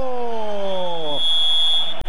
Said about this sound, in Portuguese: É Grêmio Chapecoense, apita o árbitro!